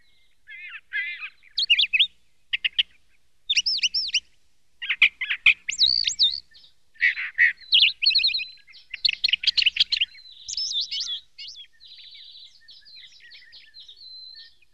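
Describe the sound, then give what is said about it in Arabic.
A small bird, a sparrow, chirps alone in many quick, high-pitched bursts of twittering and warbling notes, with brief pauses, over about fifteen seconds, clear and fairly loud throughout. “إن هذا العصفور صديقي.”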